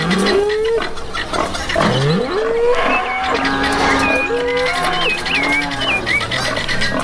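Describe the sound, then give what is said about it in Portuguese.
Farm animals call in a farmyard before dawn, including a dairy cow ready for milking and hungry livestock. Several low, drawn-out cattle moos overlap, and short high chirping bird calls join in the second half. “Galinhada no terreiro, porcada com fome. Olha o boitufão aí na madrugada, hein?”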